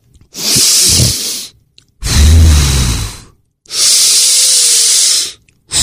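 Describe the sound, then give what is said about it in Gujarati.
Deep, noisy breathing from alternate-nostril pranayama, as in anulom vilom, with three long, loud breaths of airy hiss separated by short pauses. “અનુલોમ વિલોમ એટલે પેલું જો અંગૂઠાથી આમ એક સાઈડથી નાક દબાવવાનું પછી આમ ઊંડો શ્વાસ લેવાનો પછી બીજી સાઈડનું નાક દબાવીને શ્વાસ બહાર કાઢવાનો”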